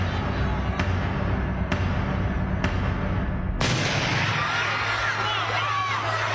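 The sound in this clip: Gunshots fired at an event on a university campus in Utah: four sharp, evenly spaced reports cut through steady background noise, and the noise shifts in character just after the last shot.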